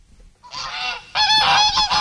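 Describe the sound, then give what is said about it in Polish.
A domestic white goose honks a few times. The harsh, nasal calls are loud and clear, and the later honks come stronger and in quicker succession. “Nielot, gęś biała, domowa.”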